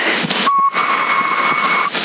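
A steady whistling tone rides a modulated 3-watt CB radio transmission on 27.075 MHz. It holds at an even pitch for over a second over thin, hissy, band-limited radio noise, then cuts off.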